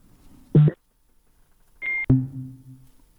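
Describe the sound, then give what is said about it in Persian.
A phone call cuts off during a remote interview: a short electronic beep sounds, then after a pause a tone ends in a sharp click, and a lower tone follows and fades out. “تماس آقای ارسلانی فکر کنم قطع شد.”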